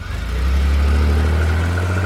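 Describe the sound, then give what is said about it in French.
A car engine runs as the vehicle drives off, a loud, steady low hum with a deep rumbling tone that holds at an even level throughout with no other sounds over it. “Bientôt, les portières claquèrent et la voiture s'éloigna.”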